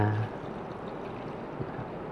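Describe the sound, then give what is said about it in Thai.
Milk being poured into a mix of equal parts milk and water makes a steady, soft liquid rush lasting about two seconds. “อย่าลืมนะครับอัตราส่วนที่ใช้นะครับนมกับน้ําก็ในอัตราส่วนที่ปริมาณที่เท่ากันนะครับก็นะครับเติมนมลงไปนะครับ”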